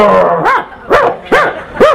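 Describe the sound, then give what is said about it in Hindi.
A dog barks loudly four times: short, high, yelping cries with a rising-then-falling shape, spaced fairly evenly, with no voices. “और अगर कोई व्यक्ति कुत्ते को पत्थर मारे टपाक तो क्या बोलेगा, चला जाएगा, जोर जोर से भौंकेगा”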